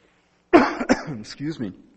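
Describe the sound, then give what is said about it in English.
A coughing fit: a few harsh, abrupt coughs with throat clearing that break into short, strained vocal sounds, loud against an otherwise quiet background. “Started to get a coughing fit up here.”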